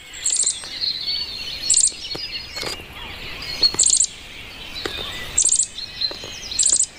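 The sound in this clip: Bird chicks calling as they leave a tree hole: about five short bursts of rapid, high-pitched chirping at a steady, spaced rhythm, with fainter twittering between them.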